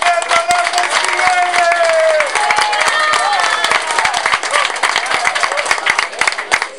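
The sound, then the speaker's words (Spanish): Dense, loud clapping from an audience welcoming a speaker at a gathering, sustained for the whole stretch with some voices mixed in. “Escuchémoslo y lo recibamos con un fuerte y acaloroso aplauso.”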